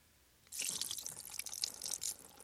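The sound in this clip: Broth being poured out onto a rock makes a faint, hissy splashing trickle that starts after a short pause and runs steadily to the end.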